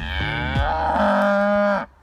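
A cow lets out one long, loud moo, a rich harmonic bellow that holds steady for nearly two seconds before cutting off, with no other sound around it.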